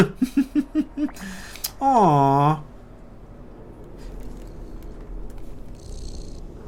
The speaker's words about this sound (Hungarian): Halljátok? Dorombol a cica, és jön a kontrollerből a hang.